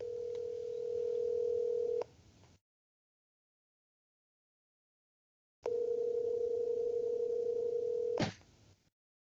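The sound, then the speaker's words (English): Telephone line tones follow a speed-dialed call: two long, steady, mid-pitched tones separated by a stretch of silence, each ending with a sharp click. “Let's see if he answers first. Let's see. Got him on the speed dial.”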